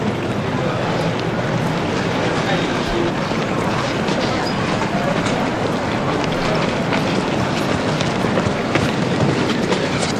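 Steady rumble of a train passing through a station, a continuous broad roar with faint rail clatter that holds at an even loudness for about ten seconds.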